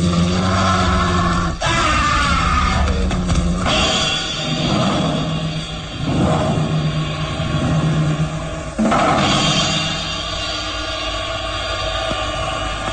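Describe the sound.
Snarling growl of a wolf-man creature as a horror-drama sound effect: a rough, continuous, loud guttural rumble that swells and surges in several harsh bursts without pause.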